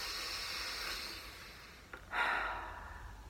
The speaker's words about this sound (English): And you take two deep breaths. In through the nose and out through the mouth.